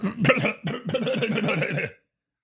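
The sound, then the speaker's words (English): An old man clearing his throat: rough, gravelly rasping in two close bursts, the second longer and rattling, then abrupt silence. “old guy, throat clear there.”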